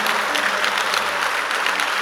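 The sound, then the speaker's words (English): Round of applause from a church audience during a prayer service. A thick, even roar of many hands clapping holds at a constant loud level for about two seconds. “You want to give God a wonderful round of applause?”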